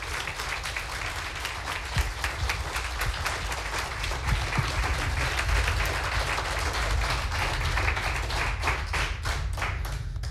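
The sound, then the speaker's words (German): Audience applause for three contestants in a competition: dense, steady clapping with scattered louder claps, sustained at an even level for about ten seconds. “Bitte applaudiert noch einmal für alle drei”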